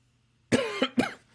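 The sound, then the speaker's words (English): Cough from a person getting over a cough: one quick fit of three tight, forceful bursts, the last trailing off in a voiced rasp, alone against near silence. “I'm getting over a cough.”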